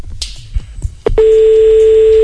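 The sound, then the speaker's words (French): A telephone call is dialled: after a few faint taps comes a sharp click, then a loud, steady mid-pitched line tone that holds unbroken to the end. “J'appelle Alida Levray, et qui est intervenante culturelle.”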